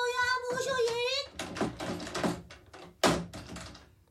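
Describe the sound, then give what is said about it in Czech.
A door is slammed shut, a single sharp, loud bang that follows a stretch of people talking and then rings off quickly. “Slušně vychovaný člověk nebouchá dveřmi.”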